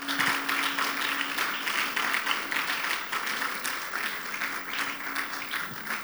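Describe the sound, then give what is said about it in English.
Congregation applause rings out at the opening of a church gathering, Abundant Life 2023, as worshippers clap to celebrate Jesus; the clapping is thick and continuous, staying loud and fairly even for around six seconds. “Put your hands together, celebrate Jesus.”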